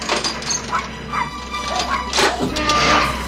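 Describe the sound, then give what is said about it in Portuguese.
A small dog barks and yips in a dubbed film scene, a mischievous puppy loose from its cage. Several sharp, high barks come through a busy, loud mix. “Que é, hein, gente? Por que esse barulho todo? Ô! Oh, cachorrinho arteiro, de volta pra sua gaiola.”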